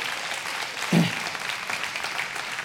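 Applause from a gathered audience of friends and family, a steady wash of many hands clapping at moderate volume that swells briefly partway through and carries on unbroken to the end.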